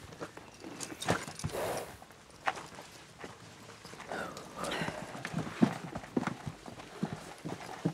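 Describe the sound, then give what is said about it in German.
Horse hooves thud and clop as a horse jumps over a person lying on the ground. The hoofbeats come as irregular, uneven thumps and scuffs, rising and falling in loudness over a quiet background. “Aber wenn du selbst hier liegst und ein paar Zentimeter über dir springt ein Pferd rüber, dann sieht von unten aus wie ein Jumbo.”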